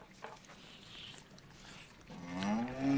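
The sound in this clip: Cattle mooing in a stable, with a calf beside a cow: faint low rustling gives way to a drawn-out, lowing moo that swells louder and rises slightly in pitch at the end.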